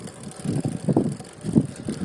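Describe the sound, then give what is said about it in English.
Bicycle riding along a bike path near a street, with a low rolling rumble in uneven pulses under steady wind buffeting and no voices. “I'm almost out of this bike path. Almost into the noisy street. Aw, man. I should go ride on my bike path all the way there.”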